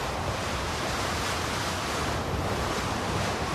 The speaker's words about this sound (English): The icy wind continues to lash through the colony.